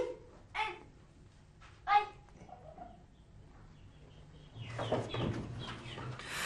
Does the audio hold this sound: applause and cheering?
no